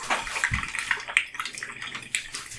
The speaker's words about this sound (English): all right, let me pour in my bleach here.